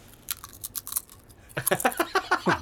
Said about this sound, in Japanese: チップスターがすげえちっちゃい音になってるね